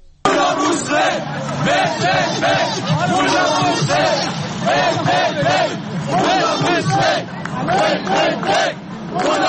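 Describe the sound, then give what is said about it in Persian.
Protesters gathered outside the Iranian embassy in Hamburg chant and shout together, a loud, dense crowd roar with a steady rhythmic pulse that continues throughout. “از هامبورگ هم صدا داریم که مردم جمع شدن جلوی سفارت ایران.”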